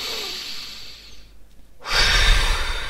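Deep breath in during a belly-breathing exercise: a softer airy breath fades into a brief near-silence, then a loud, full inhale rushes in and holds through the final second.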